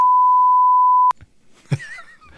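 A censor bleep masking a swear word: one loud, steady, mid-pitched beep lasting about a second that cuts off abruptly and gives way to brief, quieter sounds.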